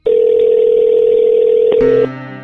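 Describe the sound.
A telephone dial tone holds steady for nearly two seconds as a call is placed to a prize-game contestant, then a short click gives way to a different, fainter buzzing tone.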